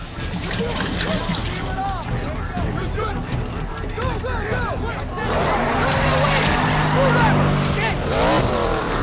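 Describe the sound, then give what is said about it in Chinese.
A race car engine drones as the car drives into the pit area during a race. A busy murmur of voices runs underneath, and the engine noise swells louder toward the end. “此时，一辆车驶入维修区啊，”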